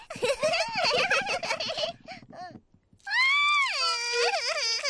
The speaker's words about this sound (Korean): 얘 왜 울어?